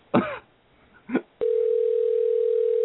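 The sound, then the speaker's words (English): A steady, unbroken telephone dial tone holds for about one and a half seconds, preceded by two brief vocal noises. “I'll just fill the dead air while you dial the phone. Well, it's dialing now”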